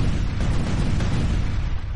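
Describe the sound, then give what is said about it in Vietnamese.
Explosions from a swarm of fire-bomb mechanical monkeys striking a giant black scorpion, heard as a loud, dense, unbroken low-pitched roar with no clearly separate blasts. “Một loạt tiếng nổ vang lên”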